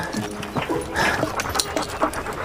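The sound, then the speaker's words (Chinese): A dog panting in quick, rhythmic breaths at moderate loudness, with short whimpering notes mixed into the brief burst of breathing. “谁家的狗？”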